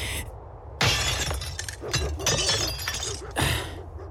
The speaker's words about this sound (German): Jetzt geh mal aus dem Weg. Ich schlag die Scheibe ein.